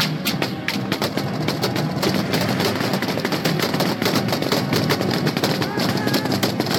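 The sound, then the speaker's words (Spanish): Intense gunfire in a shootout in Coahuila, recorded by police: many loud, rapid cracking shots in dense, overlapping bursts throughout, with voices mixed in. “Las intensas balaceras son grabadas por los mismos policías de Coahuila.”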